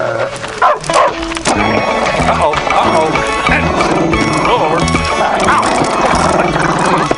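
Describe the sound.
A pet dog barks in short yips near the start, with the barks partly masked by continuous music that runs through the whole scene.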